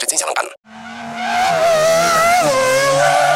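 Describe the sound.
A long, loud skidding squeal from new sneakers during a race. It follows a short burst of noise and a brief gap, then holds a steady, wavering high screech to the end.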